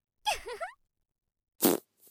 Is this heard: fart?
yes